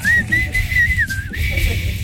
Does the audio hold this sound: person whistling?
yes